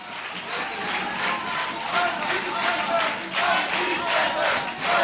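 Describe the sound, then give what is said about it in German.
A crowd in a university hall in Erfurt chants in protest during a political speech. Loud rhythmic shouting repeats in waves, mixed with clapping, and carries on without a break. “Die Sprechchöre im Saal hören nicht auf.”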